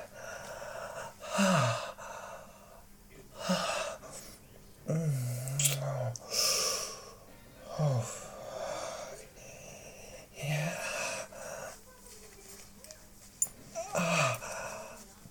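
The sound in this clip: Heavy breathing from a person, a slow series of loud, breathy gasps and exhalations, some with a low voiced edge, separated by short quiet gaps.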